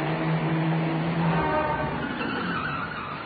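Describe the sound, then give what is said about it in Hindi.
A car approaching on a road, a steady broad roar of engine and tyres with a low droning hum, loud throughout and easing slightly toward the end. “एक और car आ रही है।”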